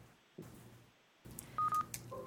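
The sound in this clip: A telephone number is dialed on a call line, a quick run of touch-tone DTMF beeps, two louder tones followed by a few softer ones, after a couple of faint clicks against low hiss.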